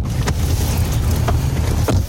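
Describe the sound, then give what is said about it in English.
A vehicle drives along a dirt road through a vast field in eastern Ukraine, giving a steady low rumble with a few brief rattling bumps and no voices. “We're driving on a dirt road deep into a vast field that's somewhere in eastern Ukraine.”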